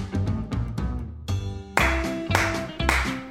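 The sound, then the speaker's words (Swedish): A short intro jingle plays: bright musical notes over a punchy bass in a bouncy rhythm, with a brief drop near the middle before the tune comes back fuller. “Men jag tänker så att jag startar jingen här och så kan vi snacka sen.”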